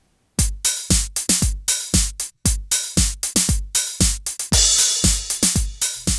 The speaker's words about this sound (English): The multitrack offers this a mono mix of the 909 drums, and they sound like this.